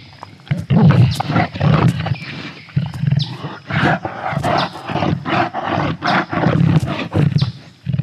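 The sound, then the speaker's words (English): A recreated ankylosaur call played back from an online search, many deep, snorting, grunting roars in quick, uneven bursts, like a huge pug or bulldog, loud and alone. “how you pronounce ankylosaur. Apparently, that's what they sounded like. They sounded like a very large pug or French bulldog.”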